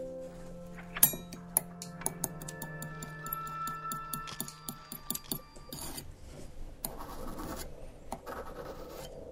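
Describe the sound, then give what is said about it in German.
Razor blade scraping and chopping on a marble plate while preparing crystal meth. Many quick, sharp taps and scrapes come in an irregular rhythm, growing into denser, noisier scraping near the end, with no talk. “Also erstmal die Karte klein machen, mit der Klinge runterschaben und dann eine Bahn ziehen”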